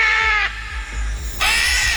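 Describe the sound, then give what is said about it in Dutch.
Harsh calls of a green-winged macaw parrot that escaped from a bird park: two loud, raspy screeches separated by a short pause, with no voices. “Het is een papegaai, een groenvleugelara. Kleurrijk beest, deed mee aan een soort voorstelling en ging er toen vandoor.”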